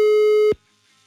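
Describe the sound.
A telephone ringing tone sounds on an outgoing call: one steady, mid-pitched electronic burst with bright overtones lasting about half a second, then cut off into silence.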